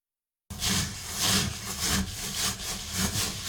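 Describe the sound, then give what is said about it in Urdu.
Fingers rub rice grains together while washing rice in the Japanese togu method, giving a steady, rhythmic gritty scraping with repeated swishing strokes after a brief silence. “چاولوں میں انگلیاں گھماتے ہوئے دانوں کو ایک دوسرے کے ساتھ رگڑتے رہیں۔ اس عمل کو جاپانی میں توگو کہا جاتا ہے۔”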